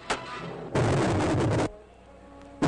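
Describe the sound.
Rocket engines fire at launch for a mission to Mars. A short, sharp burst comes first, then a sudden, loud, roaring blast lasting about a second that cuts off abruptly, and another brief burst follows at the end.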